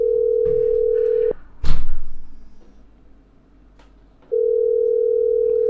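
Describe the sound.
Ringback tone of an outgoing phone call: two long, steady, mid-pitched beeps about three seconds apart. A brief clatter or rustle falls in the gap between them, and there is no speech.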